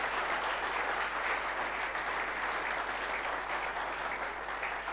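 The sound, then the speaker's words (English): An audience claps hands in dense, steady applause that runs evenly through the whole clip at a constant loudness, with no voices standing out. “Clap your hands.”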